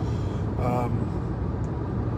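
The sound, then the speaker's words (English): A car driving on the road on the way to work, heard as a steady, loud rumble of road and engine noise that stays even throughout with no distinct events. “So I'm back to work. I'm driving to work.”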